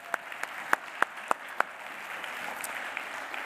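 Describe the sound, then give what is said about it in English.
Clapping for a visiting camp team at a gathering: six sharp, evenly spaced claps stand out at the start, then fainter scattered clapping carries on quietly. “Yeah, we can clap for them”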